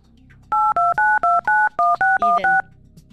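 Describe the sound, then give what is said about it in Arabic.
A telephone number is dialled on a touch-tone keypad: nine crisp, evenly paced beeps, each a short steady two-tone chirp with brief gaps between them. “فغادي نتصلوا بفتيحه من مكناس.”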